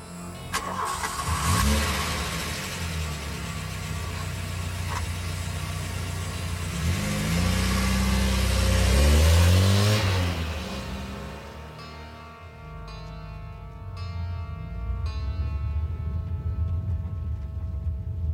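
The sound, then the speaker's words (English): A car engine starts and pulls away, a loud low rumble that swells into a rising rev in the middle before settling into a steady driving drone. “I turned the key and drove off.”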